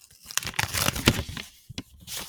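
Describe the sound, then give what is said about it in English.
Paper rips as a Halloween-themed greeting card envelope is torn open, with crisp, quiet tearing and crinkling in quick irregular bursts and no talking. “This is an audio unboxing. ASMR. There's a, we're opening up a card.”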